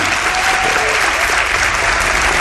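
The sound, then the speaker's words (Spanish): An audience applauds a guide being introduced, a thick, even wash of many hands clapping that stays loud and steady throughout. “para quien pida un aplauso, no se lo hemos dado antes”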